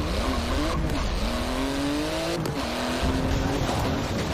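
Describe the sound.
Engine of a car driven in a video game, with the gas held down: a buzzing, revving drone whose pitch climbs in a few sweeps over a steady, noisy backdrop.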